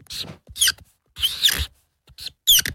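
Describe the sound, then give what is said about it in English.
Pen strokes scratch across paper as someone writes the number 407. Several short, dry, scratchy bursts come in an uneven rhythm, separated by brief silences. “I'm going to draw a number. If you can guess what that number is based on the sound of the pen strokes, you win that amount.”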